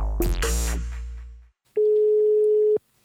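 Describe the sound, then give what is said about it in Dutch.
Telephone ringing tone while calling a church minister in Rotterdam: a fading tonal sound gives way to one steady, moderately loud tone lasting about a second, then another tone begins just at the end. “En daarom gaan we even bellen met de dominee van de Pauluskerk in Rotterdam.”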